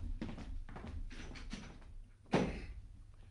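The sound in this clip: A door closes with one dull thump near the end, after a few soft bumps and shuffling movements.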